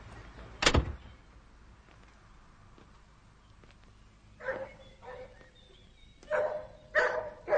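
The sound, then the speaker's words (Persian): Dog barking a few times in short, sharp bursts after a quiet pause, preceded early on by a single loud sharp thump. “سگ به طرف سعید می رود.”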